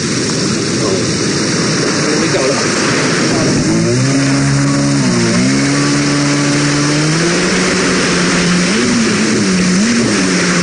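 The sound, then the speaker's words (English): A jet ski engine starts and revs: its droning note rises, dips and wavers up and down through the second half over continuous loud rushing noise. “it might be a good idea to get up on a jet ski. All right, straddle your way evenly. This is your start button, and this is the throttle.”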